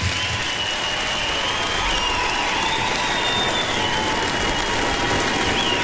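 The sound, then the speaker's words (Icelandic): Thunderous audience applause at the close of a Freddie Mercury tribute concert in Silfurberg at Harpa, a dense, steady roar of clapping that holds at an even, loud level throughout with no voices standing out. “Gefum þessu listafólki dundrandi lófatak”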